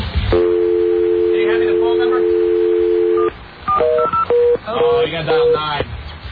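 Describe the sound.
A telephone handset gives a steady dial tone for about three seconds, followed by several short keypad touch tones pressed in an uneven rhythm as a number is dialed.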